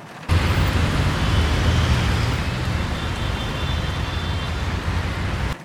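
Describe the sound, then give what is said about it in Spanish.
City street traffic on a rainy night makes a continuous, dense roar. Broad hissing and low rumbling hold at an even loudness throughout, with no distinct single vehicles standing out. “El tráfico está insoportable.”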